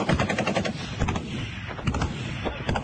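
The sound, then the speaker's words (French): Gunfire in combat at the Ukrainian front in the Luhansk region of Donbass: dense, loud bursts of rapid shots crackle continuously, with individual reports overlapping into a steady stream of cracks and thuds. “Ce que vous entendez, c'est le son d'une vidéo prise sur le front. Elle nous a été envoyée par un civil ukrainien qui vit toujours dans le Donbass. Ces affrontements ont lieu dans la région de Lugansk.”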